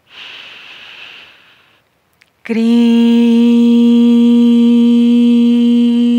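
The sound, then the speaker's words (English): A long, breathy inhale during a spiritual breathing and chanting practice lasts under two seconds. After a short pause, a voice begins a steady, sustained intoned note that continues loudly to the end. “We inhale again.”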